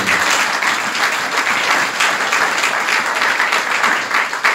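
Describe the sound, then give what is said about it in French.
An audience applauding during a sermon: loud, dense clapping from many people that keeps up at a steady level with slight swells throughout. “nous devons acclamer ce Seigneur-là.”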